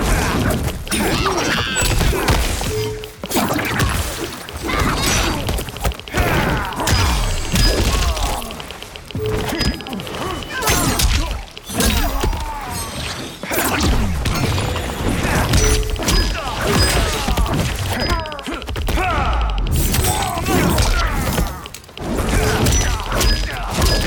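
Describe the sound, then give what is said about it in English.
Heavy thuds and crashing impacts from a fighting video game, as clones of a fighter slam victims into each other. Many loud blows and smashes crowd together over a dense, continuous layer of game effects. “Another Geras grabs the copy and both Geras's slam the victims into each other.”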